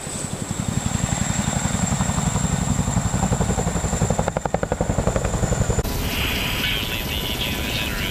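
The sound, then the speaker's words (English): A Chinook heavy-lift helicopter, modified with long-range tanks and in-flight refuelling, flies with a steady, rapid rotor thumping under a constant high whine. The tone shifts near the end. “These elite forces have adapted their Chinooks with long-range tanks and the ability to refuel in flight, and added classified weapons and electronics to this remarkable aircraft.”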